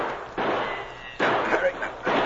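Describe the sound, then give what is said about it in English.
A volley of gunshots rings out from a cave in a radio drama effect. Three heavy, booming blasts fire at roughly even intervals, and each one leaves a rumbling decay before the next. “Now they lit them, and as the light flared up, a volley of shots rang out from the cave.”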